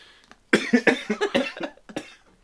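A person coughs from a tickle in the throat, a quick run of many short, sharp bursts following a quiet opening and trailing off into silence.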